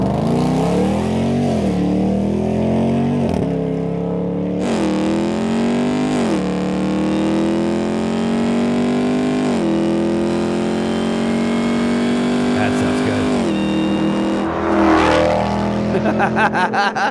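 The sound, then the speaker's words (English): A car drives by with its engine revving hard. The loud engine note climbs in pitch again and again through several gear changes, then ends with a quick rising-and-falling sweep as it passes. No one speaks. “That drive by makes me smile.”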